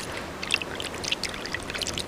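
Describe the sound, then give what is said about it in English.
Water is poured over a tanned animal skin to start fermentation that washes out lime, giving a steady, fairly faint splashing trickle with small bubbly spatters throughout. “Water is poured in to start the fermentation process. The water must completely cover the skin.”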